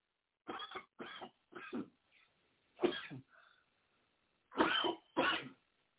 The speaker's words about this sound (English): I got to wet my throat. My throat's a little dry. I apologize for coughing on air.